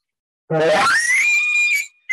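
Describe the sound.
A hunter's voice imitates an elk call, screamed out to disorient a bull. It is one loud call that starts as a low, raspy grunt and slides up into a sustained high, whistling scream, followed by a brief sharp burst at the end.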